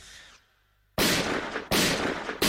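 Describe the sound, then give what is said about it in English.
A rifle gunfire sound effect fires three loud, sharp shots at roughly even intervals, each trailing a rumbling decay. A short quieter sound and a brief pause come before the first shot. “Sirens! Rifles! Firing! But he made it out!”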